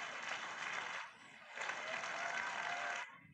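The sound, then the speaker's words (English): Faint applause from an audience at a religious gathering, a soft wash of clapping that briefly dips partway through, then swells again before stopping abruptly near the end. “Give another round of applause.”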